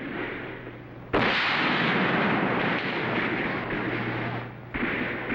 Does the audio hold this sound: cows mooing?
no